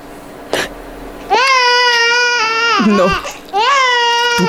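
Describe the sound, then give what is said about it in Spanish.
A baby cries loudly in two long, sustained, high-pitched wails separated by a short break, the second trailing off at the end. “No ha sido nada, bebé. No llores.”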